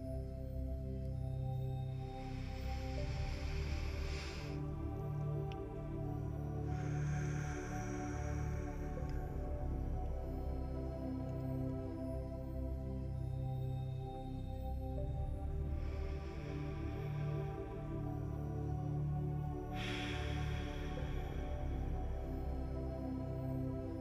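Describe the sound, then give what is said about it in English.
A few slow, deep breaths taken during a guided breathing exercise rise as soft airy bursts, spaced well apart over steady sustained tones. “We continue to fill our bodies as we take three deep breaths together.”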